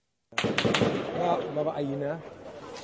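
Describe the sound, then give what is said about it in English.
Gunfire breaks out during a diplomats' visit to Jenin in the occupied West Bank: a quick burst of sharp cracks near the start, with people talking over and after them. “this footage captures the moment the group of 20 was being briefed on the situation in Jenin, and they were giving interviews to journalists when they heard gunshots”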